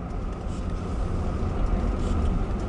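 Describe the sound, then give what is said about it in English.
A car driving along a road, heard as a steady low engine and road rumble that stays at an even loudness throughout. “We'll drive up this way. The land over here is not very high.”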